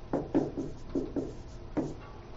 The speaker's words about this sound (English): Let's write down our scenario.